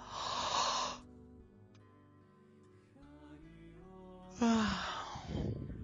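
Yawning and sighing during a stretching exercise, fingers interlaced and arms stretched overhead: a breathy exhale, then a long quiet voiced yawn-like tone, and a second, louder breathy sigh near the end.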